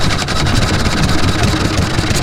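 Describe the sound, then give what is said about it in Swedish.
A 3.5 horsepower engine runs steadily, a dense, continuous mechanical drone with a rapid low rumble and fairly loud, even level throughout. “Olympia, 3,5 hästkrafter.”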